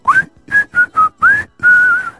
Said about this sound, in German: Wenn ich dies pfeife,